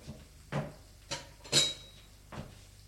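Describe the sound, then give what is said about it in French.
A plate set down into a kitchen sink: a few separate clattering knocks of crockery, one giving a brief bright ringing clink, heard alone without talk. “Une fois qu'elle est finie, elle prend l'assiette, va la mettre à l'évier”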